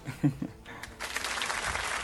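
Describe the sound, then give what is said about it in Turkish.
Audience applause on a quiz show: a brief voice comes first, then a dense burst of clapping starts about halfway through and continues steadily to the end. “alkış alabilir miyim hemen?”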